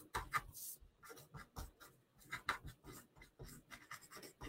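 Scratchy writing on a surface as someone writes a point down: many short, irregular rasping strokes in quick succession, faint and with no talk.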